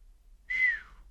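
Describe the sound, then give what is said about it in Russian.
A quiet, familiar human whistle sounds once in reply: one short tone that holds steady and then dips slightly in pitch at its end, heard alone against near silence. “Но вот тихий знакомый свист в ответ подсказал, опасность миновала.”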